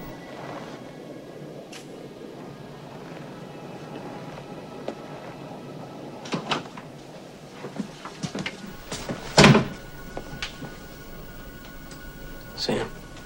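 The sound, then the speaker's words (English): A door being shut and then locked in a shadowy hallway: a few sharp knocks and clicks, the loudest one midway, over a quiet, faintly hissing background. “shuts and locks the door.”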